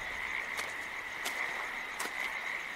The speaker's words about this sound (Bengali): মাঝে মাঝে মেঘের গুড়গুড় শব্দ ছাড়া নিশ্চিদ্র অন্ধকারে আর একটাই আওয়াজ শোনা যাচ্ছে, এক টানা ব্যাঙের ডাক।